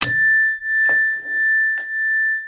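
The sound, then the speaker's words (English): A chime with a double resonance, used to clear energy and mark the start of meditation, is struck once. Its bright, sustained tone rings on and swells and fades in a slow pulsing beat as it decays. “Well, you can also do that with bells as well, or with chimes. And so I actually have this chime over here”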